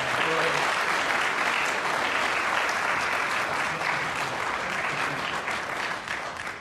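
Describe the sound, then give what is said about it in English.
Audience applause welcoming a speaker introduced on stage, many hands clapping in a dense, steady burst that holds at full loudness before easing off slightly at the end. “So having said that, I introduce my good friend, Jim Newcomer. Let's give him a hand to welcome here.”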